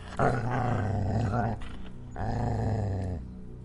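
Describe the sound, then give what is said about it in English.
A dog's deep, gurgling growl, sounding as if it senses danger, comes in two long, low rumbling bursts with a brief pause between them. “Letting out a deep, gurgling growl as though sensing danger,”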